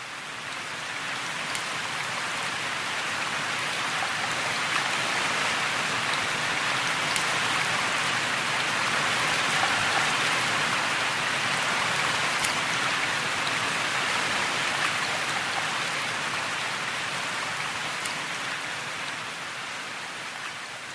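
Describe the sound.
Wind-driven rain hisses in a dense, steady wash, loud and unbroken from start to finish, with no voices.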